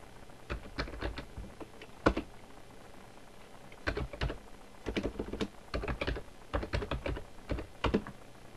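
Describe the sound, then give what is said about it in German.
Keys on a computer keyboard clatter as a short command is typed into a terminal, in several quick bursts of crisp clicks separated by brief pauses. “Ich tippe ein ps, Leerzeichen, ax, Enter, um die Prozessidentifikationsnummer rauszubekommen vom Texteditor”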